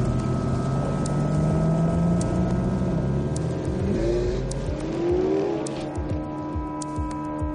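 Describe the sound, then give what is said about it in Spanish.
Car engines roar at full speed as the cars race onto private land. The roar is loud and steady, with engine tones climbing as they accelerate, and no voices are heard. “Los dos vuelven a los coches y pasan a toda velocidad al terreno privado.”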